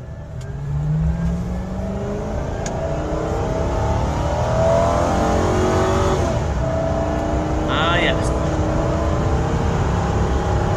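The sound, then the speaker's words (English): Ford Crown Victoria engine driven tight and fast around a curve, a loud, continuous revving drone that builds early on and stays strong throughout. “that Crown Vic gets a little loose when you go around a curve a little tight and a little fast.”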